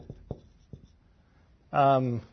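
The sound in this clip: Hand-drawing of three arrows produces a few quick, faint scratchy pen ticks, followed by a person speaking.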